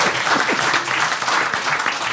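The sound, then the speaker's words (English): An audience applauds to vote for a side after a debate-style contest. Many hands clap in a dense, continuous clatter that holds steady and loud throughout. “if you think Tucson and Fanshawe made the best case, applaud now”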